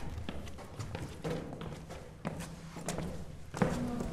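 Footsteps climbing the spiral stairs of an old tower: many uneven, soft thuds and taps in a steady walking rhythm, each footfall a short, dull knock.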